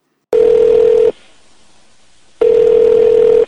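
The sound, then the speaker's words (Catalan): A telephone call sound effect from an unknown number: two long, steady, mid-pitched tones, each about a second, separated by a quieter gap of just over a second. “vaig rebre una trucada d'un número que desconeixia totalment i, i va passar això.”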